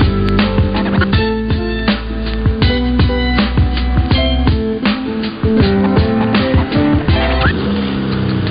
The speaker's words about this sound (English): That's the sound of the 2023 Chevy Silverado's turbo high-output engine, delivering impressive power with no compromised durability.